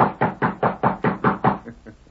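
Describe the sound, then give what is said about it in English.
Knocking on a ranch house door: a quick, even run of firm, hollow knocks that trails off into a few fainter taps. “The next morning, he rode to the Lazy Inn, dismounted, and rapped on the ranch house door.”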